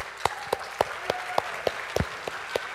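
A church audience claps to welcome a couple, heard as about ten steady, evenly spaced claps in a regular rhythm over a low, constant background hum.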